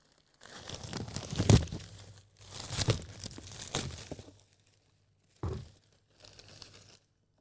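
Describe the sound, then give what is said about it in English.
Wrapping on a green box crinkles and tears as the box is opened, in four bursts of loud rustling separated by short pauses, the last two brief and fainter. “Okay, I'm opening the green box.”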